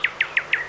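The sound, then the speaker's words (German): Nightingale song heard as five quick, bright, high chirps, evenly spaced and sharp, within less than a second. “Das ist die Nachtigall und nicht die Lerche.”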